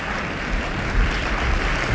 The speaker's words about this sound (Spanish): Con estos aplausos saluda el público asistente al estudio auditorio la entrada al escenario del Yale Glee Club.